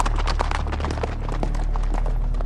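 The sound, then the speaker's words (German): Hoofbeats of horses ridden away over the bank of a wadi: a dense, continuous clatter of many rapid hoof strikes over a steady noisy background. “Sie nahmen ihre Habseligkeiten zusammen und bestiegen ihre Pferde. Und in wenigen Augenblicken waren sie hinter dem Rande des Wadi-Ufers verschwunden.”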